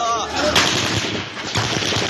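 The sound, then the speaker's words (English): Gunshots captured on a filmed video in the early morning: a few loud, sharp cracks with rough echoing bursts between them, and a voice audible briefly at the start. “in Bilal's video, filmed 7 minutes earlier at 4:22 a.m., gunshots ring out.”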